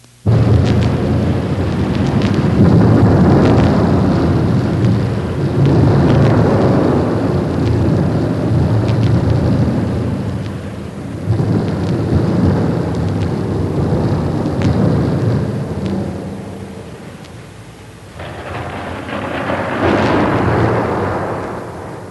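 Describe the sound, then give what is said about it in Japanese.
Rolling thunder in long, deep rumbling swells that surge and recede several times, dipping briefly near the end before building again. The sound is loud and heard alone. “驚いたことに、先生が呪文を唱え始めると教室の中が急に暗くなり雷鳴がとどろき始めました。”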